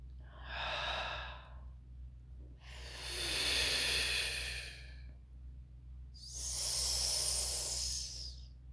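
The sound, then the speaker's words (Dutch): Slow, deep breathing during a guided relaxation exercise: three long, soft, hissing breaths, each swelling and then fading, separated by short quiet gaps over a steady low hum. “En ontspannen, dan voel je ook vanzelf de adem al binnenkomen. Doe hem nog een keertje.”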